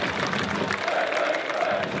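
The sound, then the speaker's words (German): Football fans applauding in a stadium during a match as an injured player gets back on his feet, a steady, even wash of clapping and crowd noise that holds throughout. “Deswegen auch der Applaus der Lokfans.”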